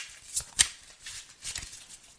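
Tarot cards being shuffled and drawn during a reading: a few brief papery flicks and snaps, two sharper ones early on, then softer rustling, all fairly faint.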